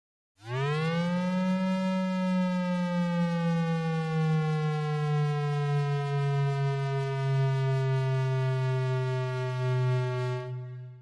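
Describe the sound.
Sonified predicted-value model data for a brown dwarf, rendered as a sustained, harmonic-rich, siren-like tone. It swells up briefly at the start, then slides slowly downward in pitch over about ten seconds at an even loudness before cutting off.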